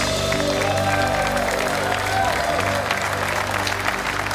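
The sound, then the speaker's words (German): An audience applauds, dense continuous clapping that holds at a steady, loud level throughout without building or fading. “das ist dein Applaus.”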